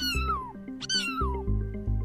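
A kitten meows twice, each high cry sliding downward in pitch, clear and alone with a brief gap between them.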